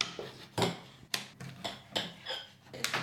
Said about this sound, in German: Diese Kartoffeln müssen wir erstmal schälen und dann schneiden wir sie in ganz dünne Stücke.